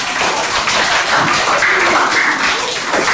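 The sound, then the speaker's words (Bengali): Steady applause from a group during a children's quiz session, a dense, unbroken patter of many hands clapping at an even level for about three seconds. “খুব ভালো, হাততালি হয়ে যাক।”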